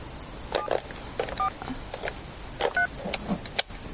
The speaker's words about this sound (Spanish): Coge el auricular y marca el número de la mano.